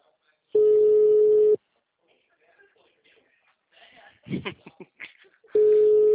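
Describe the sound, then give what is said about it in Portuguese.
The ringback tone of an outgoing telephone call: a steady mid-pitched tone lasting about a second, then a quiet gap with brief voices and rustling, and then the same tone again. “Agora tá chamando. De manhã ele não atendeu. Quando eu liguei para oferecer, ele não atendeu.”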